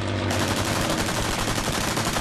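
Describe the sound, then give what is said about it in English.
Machine-gun fire from a German warplane strafing fighters in a film scene: a dense, loud stream of rapid shots that runs unbroken through the short clip. “In this scene from the film, fighters are strafed by a German warplane.”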